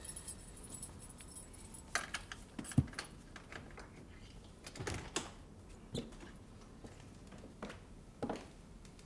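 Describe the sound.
Keys jangle faintly as someone searches for a key, giving irregular metallic clinks and small rattles with a few sharper clicks scattered across the stretch.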